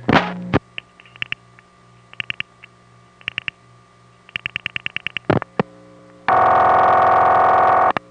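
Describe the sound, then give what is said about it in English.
Crossbar tandem dial pulsing to a step-by-step PBX on a telephone line: several groups of sharp, rapid clicks sound over a low line hum, and a loud, steady buzzing tone starts near the end. “Often you can hear the crossbar tandem dial pulsing to the PBX.”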